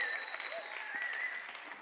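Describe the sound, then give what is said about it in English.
A church audience claps in praise in a dense, steady wash of applause, with faint voices and tonal sounds beneath it. “I want you to give him a big clap of praise right now. Come on, let's give him a huge clap of praise.”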